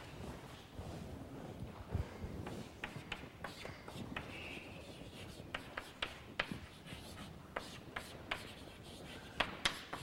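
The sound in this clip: Many short taps and scratchy strokes of writing on a board during a topology lecture, faint and irregular, with no talk.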